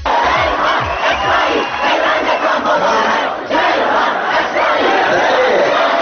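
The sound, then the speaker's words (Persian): Students chant a slogan together in a hall, a dense mass of raised, shouting voices that stays loud and continuous throughout. “یه سری دانشجوی غیر بسیجی فتنگر گرا هم بودن توی سالون که با شعاراشون سعی میکردن یه بارم که شده با حاج حسین شریعت مداری ارتباطی برقرار کنن مثلا یکی از شعارا این بود”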